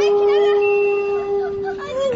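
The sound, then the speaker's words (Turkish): A wolf howls at the door as a radio drama effect: one long, sustained, tonal howl held at a steady pitch, lifting slightly near the end. “Kurtun biri kapının önüne gelmiş.”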